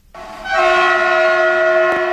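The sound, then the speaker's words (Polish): A passenger train's horn sounds as it departs early in the morning from a small-town station in Poland. After a quiet quarter second the steady, harmonic horn tone swells and holds loud and unbroken to the end. “Z toru 13 przy peronie pierwszym o 4:44 odjechał pierwszy pociąg ze stacji w Końskich do Łodzi.”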